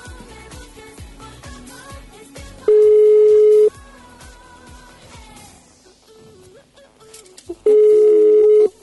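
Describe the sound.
Two long, steady ringback tones from a mobile call on a 4G network, waiting for someone to answer, loud beeps over background music.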